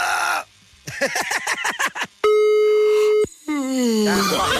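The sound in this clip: A telephone dial tone sounds while a call is placed: a single steady, even tone holds for about a second and stops abruptly, with voice-like sounds before and after it.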